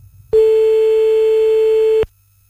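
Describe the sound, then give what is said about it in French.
A single steady telephone tone sounds while a call is being placed, loud and unbroken at one pitch for under two seconds, then stops abruptly. No voices are heard. “Alors attention c'est parti, on les appelle depuis tout à l'heure.”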